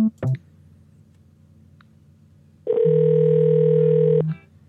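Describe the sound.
A phone rings. A brief click comes first, then a short pause, then a steady electronic ring tone holds for about a second and a half and cuts off cleanly.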